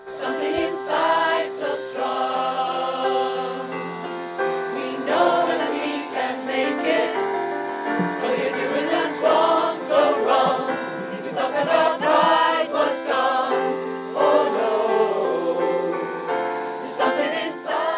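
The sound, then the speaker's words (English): A choir of LGBTI community members sings at a protest outside the RDS during the World Meeting of Families event, with full, sustained voices moving through phrases at a steady, loud level for the whole stretch. “That's the sound of the Rainbow Choir, made up of members of the LGBTI community, who gathered outside the World Meeting of Families event at the RDS on Thursday in protest at the exclusion of their”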